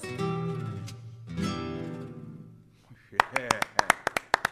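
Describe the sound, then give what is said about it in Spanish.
Sparse, sharp hand claps from an audience after a song, following a stretch of talk and then snapping out as a quick run of many distinct, crisp strikes that rise and fall in loudness. “Ovación.”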